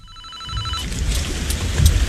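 A mobile phone rings: a bright, steady ringtone of layered tones lasts under a second, then gives way to a dense, noisy rumbling wash that swells louder toward the end.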